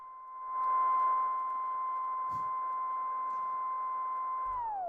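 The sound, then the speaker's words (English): A timecode DVS control record plays as a steady, fairly loud pure tone with a faint higher overtone over light hiss, its pitch sliding sharply down at the very end as it slows. “What this is a time code or like DVS record, however you want to call it.”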